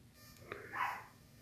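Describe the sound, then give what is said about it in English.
A small dog barks faintly in the background, giving two short, sharp barks in quick succession, with no talk over them. “Sorry if you hear a dog barking in the background.”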